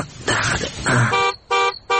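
Car horn honking as a car arrives: a series of loud, buzzing honks, with longer blasts at first and then short, repeated toots at the end, heard alone.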